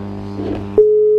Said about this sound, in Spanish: ¿Se cortó? Sí. No se cortó. Él lo habrá cortado. Vamos a llamar otra vez.